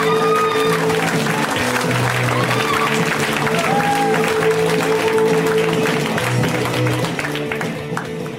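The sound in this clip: Loud, continuous applause and crowd noise from a comedy club audience welcoming a comedian to the stage, holding steady for several seconds before easing slightly at the end.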